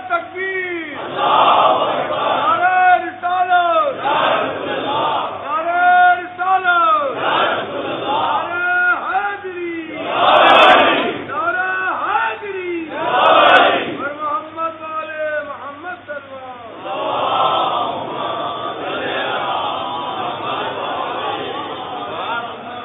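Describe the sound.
A large crowd shouting together in answer to the Nara-e-Takbeer call, loud chanted bursts rising and falling in repeated waves throughout.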